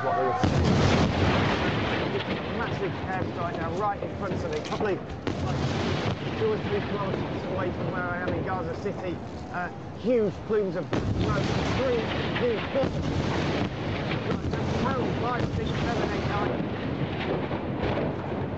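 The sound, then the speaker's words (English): Heavy blasts from Israeli airstrikes about a kilometre away merge into a loud, dense roar and rumble that continues for the whole stretch, with people talking over it. “Soon after, possibly in retaliation, Israel struck back with massive force, as I was live on air.”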